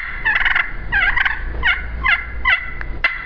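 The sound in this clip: A hunter's turkey call imitating a turkey during a hunt: several short groups of high, raspy yelps and clucks, played at moderate level over faint background noise.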